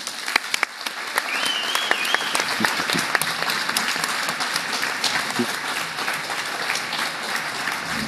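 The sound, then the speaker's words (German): An audience applauds to welcome a speaker at a medical conference, dense clapping sustained at an even level for about eight seconds, with a few sharper claps at the start. “der Länge des Applauses entnehme ich, dass du hier auch bekannt bist.”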